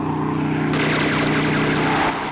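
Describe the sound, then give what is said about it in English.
A small propeller aircraft swoops low over a convoy of vehicles. Its engine drone is loud and continuous throughout, thickening into a fuller roar partway through with no pause. “A small aircraft progresses across a clear blue sky. Suddenly, it swoops down over the convoy.”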